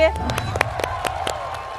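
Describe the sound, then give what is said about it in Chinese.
Studio audience applause at a cooking show: sparse, irregular claps, moderately faint, over a steady tonal background. “着急鼓掌是吧？”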